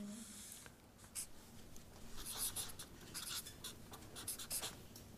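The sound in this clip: Handwriting as a word is written by hand, heard as a busy run of brisk, scratchy strokes of varying length that keep coming without a pause.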